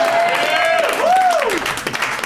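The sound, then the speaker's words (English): A comedy club audience applauds and cheers after a mention of a favorite movie. Brief, dense clapping runs underneath, with excited voices rising and falling over it. “saying Con Air into a microphone got more applause than any joke I've ever written”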